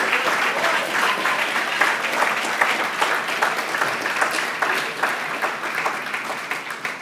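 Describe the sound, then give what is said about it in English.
Applause from a church audience at the close of a service: dense, loud clapping that holds steady for the whole stretch without a pause. “can we like make some crazy noise for the one that delivers us from the wrath of God to come?”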